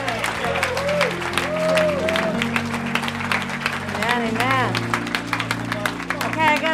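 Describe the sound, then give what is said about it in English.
An audience at a church morning service claps to welcome a pastor to the stage, a continuous crackle of many hands, with a voice speaking over it. “I want you to put your hands together and welcome with me Pastor Catalina as she comes to share a word with you this morning.”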